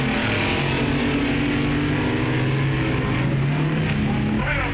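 Loud, steady engine roar from drag racing cars launching off the line, a Dragmaster dragster among them. The deep, droning pitch wavers slightly and never drops away across the whole stretch.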